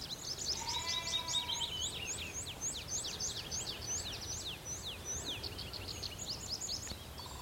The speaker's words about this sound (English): it's tree pipits. It's hard to pick them out, but they're kind of more rapid. Sort of, I think they're a lovely song, tree pipit.